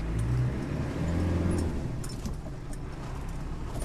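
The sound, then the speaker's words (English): A car drives slowly along a muddy road beside rice paddies near the Thai border, with a steady, low engine rumble and light rattles throughout. “I'm going to try not to drive into the rice paddy.”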